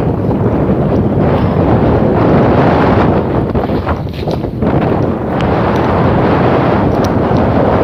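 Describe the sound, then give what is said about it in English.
Brisk wind blowing outdoors, a loud, steady roar buffeting the microphone, easing briefly midway before building again. “Keep my head down, keep my cap on. That wind is brisk.”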